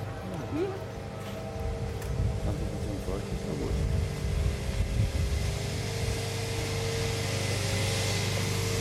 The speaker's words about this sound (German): stehen vor einem Gerät, da steht Siebtrommel drauf. Und es ist ziemlich laut.